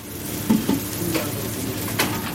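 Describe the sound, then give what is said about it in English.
Steaks and burgers sizzle on a kitchen cooktop, topped with eggs and cheese. A continuous frying hiss runs throughout, with a few light clicks and knocks on top and no speech. “the steaks and burgers are sizzling away here in the kitchen, topped with eggs and cheese for the lunchtime rush”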